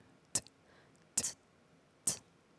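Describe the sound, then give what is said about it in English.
A voice imitates a basic hi-hat drum with three short, crisp hissing bursts, each a sharp 'ts' that fades quickly, spaced about a second apart and heard alone. “like this is the hi-hat sounds. Okay, of the drums. Okay, mm. Hi-hat drums. Okay. Yeah, it's the hi-hat drum yeah.”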